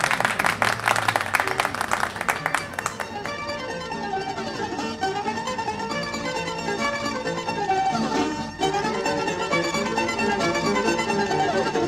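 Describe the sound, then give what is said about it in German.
Audience applause for a bouzouki player: a few seconds of brisk clapping that cuts off abruptly as plucked bouzouki music begins and carries on alone. “Applaus.”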